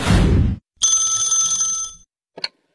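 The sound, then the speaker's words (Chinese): A telephone rings with an incoming call, a bright, sustained trilling ring lasting about a second. A broad burst of noise comes before it and a short, high blip follows. “小何的表弟打来了电话”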